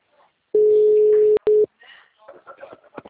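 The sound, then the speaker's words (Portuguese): A steady telephone tone sounds after a call drops on a poor mobile network: one long beep, then a short one, followed by a voice speaking briefly. “a ligação caiu de novo. Porque a rede aqui tá horrível.”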